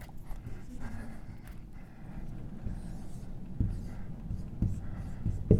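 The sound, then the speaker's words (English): Writing by hand makes faint, scratchy strokes in steady bursts, with a few sharper taps and scrapes growing slightly louder toward the end. “So if we stick with trying to stick with, I should probably write bigger.”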